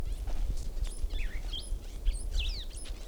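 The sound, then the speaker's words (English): Bird calling in the background: many short, high chirps and quick sweeping whistles scattered over a steady low rumble, with no talking. “Another bird in the background.”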